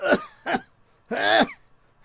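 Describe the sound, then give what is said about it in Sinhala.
Chesty, phlegm-laden coughing comes in a few rough, fairly faint bursts, with a longer gravelly hack in the middle. “ඒ උඹට කැස්සනි? ඔව් බං කැස්ස සෙම බං මේ මට පපුවේ සෙම.”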